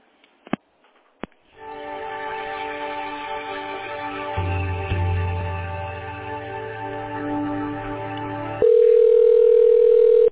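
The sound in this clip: Telephone line sounds during a call transfer: two sharp clicks lead into a buzzing, harmonic-rich hum. Near the end a loud, pure steady tone takes over and holds.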